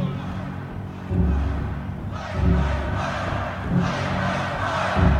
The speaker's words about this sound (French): Contestation dans le public. Ils ne veulent pas qu'ils parlent. Ils veulent que ça joue, qu'ils fassent le show.